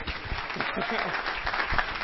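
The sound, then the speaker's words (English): Audience applause for a speaker at a talk: steady, dense clapping at an even level throughout, with a voice briefly heard under it. “So, yeah, so I think maybe by way of just an applause, just to get everyone, just appreciate her, just with some love, please.”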